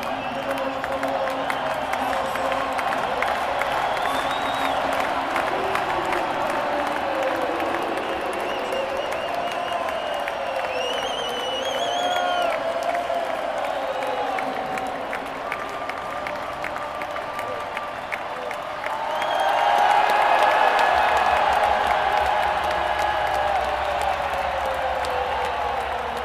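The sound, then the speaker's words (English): Crowd cheering and clapping for cyclist Romain Bardet during a race: a dense, continuous roar with scattered whistles that swells louder toward the end. “I should pause for a moment because, as you can hear, there's a lot of support for Romain Bardet.”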